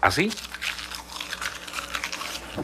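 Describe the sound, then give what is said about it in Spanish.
A plastic bag of pizzerolas crinkles among snacks, a loud, jittery run of many small crackling bursts with almost no pauses. “estábamos comiendo normal, cuando la bolsa de la nada empieza a sonar como cuando agarras”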